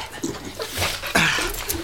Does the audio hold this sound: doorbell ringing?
no